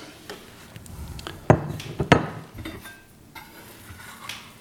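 A plate for a piece of soft-cooked apple is set down with two sharp crockery clinks close together. Quieter handling sounds follow.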